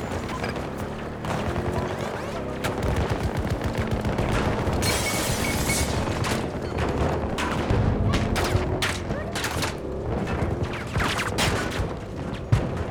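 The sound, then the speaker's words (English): Gunfire from whole magazines being emptied in a video game: dense, rapid automatic bursts and heavy booms overlap continuously, with many shots throughout. “I'm just firing whole entire magazines into these guys, and they're not fucking dying with this piece of shit.”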